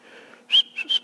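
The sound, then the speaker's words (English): A person whistles a few short, high, clear notes in quick succession after a soft, quiet lead-in. “Hey, why are you whistling?”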